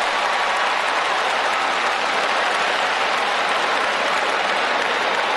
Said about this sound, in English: Here he's getting a prolonged standing ovation from the audience.